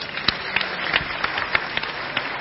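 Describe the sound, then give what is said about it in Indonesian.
An audience at a discussion gathering applauds: dense, crackling hand claps at a steady, moderate level, with sharper individual claps popping out of the wash throughout. “Tepuk tangan”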